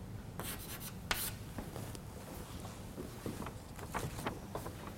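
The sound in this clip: Handwriting of formulas scratches softly through a run of brief, uneven strokes and taps, with a few sharper scrapes. The sound is faint throughout.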